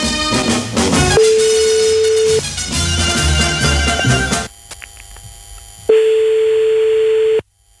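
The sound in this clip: A telephone ringback tone plays while a call is being placed. It gives two long, steady, mid-pitched beeps, each lasting over a second, over loud background music.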